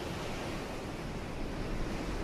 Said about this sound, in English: Is that the ocean? That is the ocean